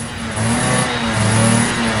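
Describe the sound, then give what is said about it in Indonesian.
A motorcycle engine revs as it pulls up: a loud, steady mechanical drone whose pitch shifts as the throttle changes, with no talk. “Lo serius jemput gue pakai motor kayak gini? Iya serius, lagian biasanya cewek-cewek suka kan dijemput pakai motor kayak gini.”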